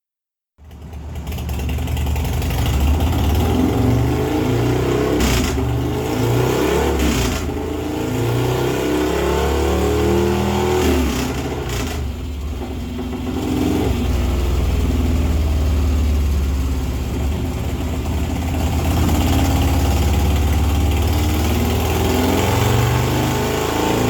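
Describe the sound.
A car engine revs on a dyno, held at high revs and climbing on and on without cutting out. The loud, sustained roar runs the whole clip with a few surges in intensity and no talk.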